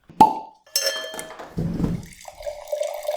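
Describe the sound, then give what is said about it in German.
Wine bottle being opened: a sharp pop, then glassy clinks and handling noises, followed by liquid trickling and gurgling toward the end, all fairly quiet and with no talk. “Und eigentlich würde ich jetzt schon mal eine Flasche öffnen. Ist das okay für dich? Ja, logisch. Mal eine aufmachen.”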